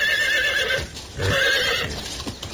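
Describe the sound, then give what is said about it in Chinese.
A horse-drawn carriage with hooves clip-clopping in an uneven rhythm while the horse whinnies with bright, wavering neighs. “后面一辆马车嘚嘚地赶上来”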